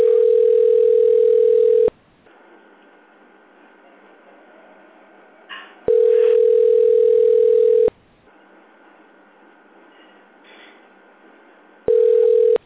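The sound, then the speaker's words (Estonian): A telephone line tone sounds while a caller waits on hold for a sales department. A steady mid-pitched tone of about two seconds repeats three times, the last cut short, with quieter stretches of faint hiss between. “Olete helistanud Allfreshi müügiosakonda. Hetkel on kõik liinid hõivatud. Jääge palun ootele.”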